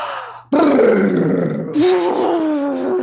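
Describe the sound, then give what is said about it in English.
A forceful, cartoonish exhale blowing all the air out, loud and voiced like a drawn-out groan, pushed out in long sustained bursts. “I always have my clients blow all their air out because 70% of our toxins come out, not as you might expect, but through our breath. So I'd like you to do this and do a cartoonish like fashion.”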